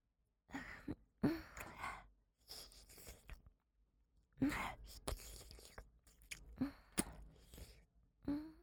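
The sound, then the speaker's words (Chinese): A person breathes heavily in uneven bursts of panting, gasps and moaning sighs. Short pauses separate the bursts, and the breaths are quiet but close and breathy. “最强英雄，你的呼吸开始急促起来了，脸也红红的。”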